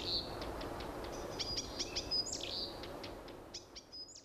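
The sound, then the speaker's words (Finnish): Blyth's reed warbler singing: a faint run of short, high chirps and clear whistled notes, repeated in quick irregular bursts over a steady background hiss. “tämmöisiä viitakerttuisia saattaa kuulla sitten heinäkuulla vielä heinäkuun puolivälissäkin.”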